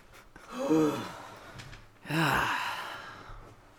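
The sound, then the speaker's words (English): Heavy, out-of-breath breathing from a person who has just walked up stairs. Two long, audible breaths with a sighing, slightly voiced quality, each swelling and fading, fairly soft overall. “I'm out of breath. I know. We just walked up the stairs.”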